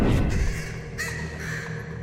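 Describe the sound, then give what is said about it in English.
A crow caws a couple of times, harsh and fairly faint, over a steady low rumbling background with no talk. “that beak shifts a little bit more and the color darkens until you are walking alongside this crow”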